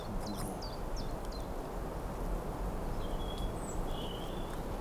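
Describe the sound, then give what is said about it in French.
Faint birdsong from a small grove: scattered high chirps and a few thin drawn-out whistles over a steady rushing background noise. “accompagné par quelques oiseaux qui se situent dans un petit bosquet de”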